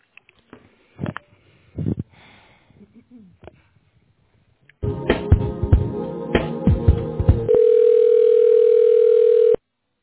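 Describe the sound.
A steady mid-pitched telephone tone holds for about two seconds while an office call is transferred. Before it come a few seconds of crackly, clattering line noise and a few faint short sounds.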